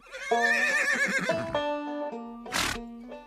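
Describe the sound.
A cavalry horse ridden by a Prussian cuirassier whinnies in a loud, wavering harmonic call that drops into lower held tones, then gives a short, noisy snort before a faint final note.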